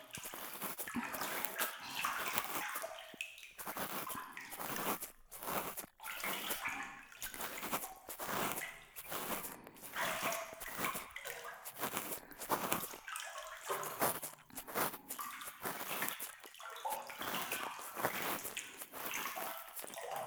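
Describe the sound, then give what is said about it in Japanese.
Warm water poured during an ear-cleaning session, a soft, continuous splashing and trickling that surges and breaks off in short gaps throughout, quiet and with no talk. “冷えてきましたか？お湯かけてあげますね。”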